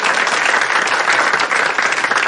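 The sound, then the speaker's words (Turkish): Audience applause during a lively talk-show interview: a continuous wash of many hands clapping, loud and even throughout with no pauses. “Bir alkış.”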